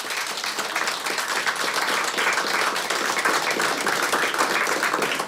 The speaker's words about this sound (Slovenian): s hvaležnostjo in aplauzom jih lepo pozdravimo,